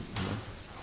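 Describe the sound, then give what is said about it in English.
A door closes with one soft thump during a talk, a brief muffled knock over a faint, steady background. “And can you close the door, please?”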